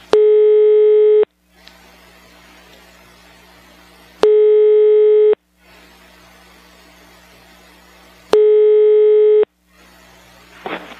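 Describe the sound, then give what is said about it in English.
A telephone ringback tone on a call connecting to Sweden: three steady mid-pitched tones, each about a second long, separated by pauses of roughly three seconds with low line hum between. “You will soon be connected to a random Swede somewhere in Sweden. This call may be recorded.”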